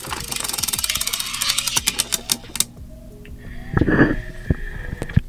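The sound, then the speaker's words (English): A prize wheel is spun for NFL predictions. It gives a fast run of sharp mechanical clicks that gradually space out as the wheel slows and stops, and a brief tonal sound follows. “NFL prediction version of the Wheel of Chingadera. Here we go. Let's spin it.”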